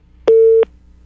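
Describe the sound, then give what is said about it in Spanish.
A telephone line tone sounds as a call is put through: one clear, loud, steady mid-pitched beep lasting about a third of a second, heard alone. “Primero voy a dar paso a una llamada telefónica.”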